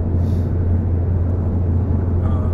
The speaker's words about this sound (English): I hope this is coming through well, because I am driving right now.